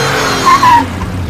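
A car pulls away as the clutch is let out, its engine surging under a brief, sharp tire squeal near the middle. The sound then drops back to a steady engine rumble, with no voices.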